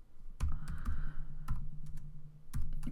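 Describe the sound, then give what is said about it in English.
Quiet typing on a computer keyboard while debugging code in the Unity editor: a few soft, scattered key clicks over a faint low hum. “Let's create a breakpoint. Let's type something inside, something funny like”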